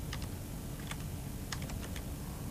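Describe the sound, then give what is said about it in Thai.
Keystrokes clatter on a computer keyboard as light, irregular clicks in a few short bursts, over a steady low background hum. “เดี๋ยวพิมพ์เอา”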